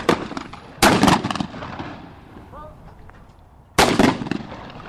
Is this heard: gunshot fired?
yes

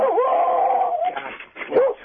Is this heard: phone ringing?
no

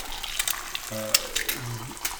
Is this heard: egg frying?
yes

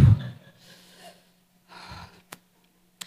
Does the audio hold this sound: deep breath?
yes

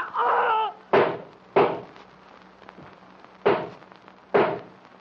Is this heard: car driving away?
no

